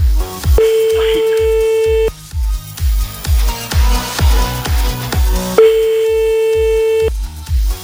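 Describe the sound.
Telephone ringback tone of an outgoing call waiting for an answer: two long, steady mid-pitched beeps spaced a few seconds apart, heard over a pulsing, rhythmic music beat.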